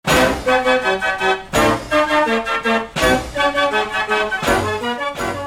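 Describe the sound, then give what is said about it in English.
A mechanical organ plays live from a programmed punch card, giving a full, bright acoustic performance with chords that land in strong, regular attacks about every second and a half, with many sustained notes ringing between them. “What you're hearing is a live performance. It's coming from obviously a programmed punch card, but what you're hearing from the organ itself is a live acoustic performance”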